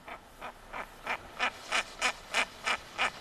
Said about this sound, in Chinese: 那我们再听另外一款雌鸟的叫声，我们来感觉一下